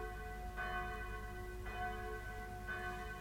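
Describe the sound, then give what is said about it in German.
A loud wake-up bell rung to announce the day to a sleeping town strikes three times at an even pace, each stroke leaving a bright, shimmering ring that hangs over a steady low rumble. “Nun, da Kapitän Kett in Matrosenmütze und Seestiefeln mit seiner lauten Raus-aus-dem-Bett-Glocke den heutigen Tag verkündet.”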